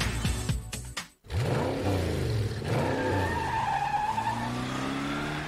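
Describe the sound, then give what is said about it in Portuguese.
A car revs and skids in a cinema advert sound effect. A loud engine roar cuts off abruptly about a second in, then gives way to sustained tire screeching that sweeps up and down in pitch. “Sem a magia do cinema, isso seria só um motorista furioso.”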